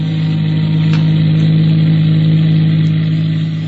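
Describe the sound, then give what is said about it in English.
Steady car engine drone of a car motoring along a winding state road outside Charlottesville, Virginia, holding an even, continuous mid-pitched hum with no voices. “They're motoring, of course.”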